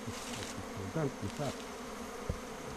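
Honeybees buzz on a brood comb in a hive: a faint, steady, continuous drone, with a brief soft click near the end.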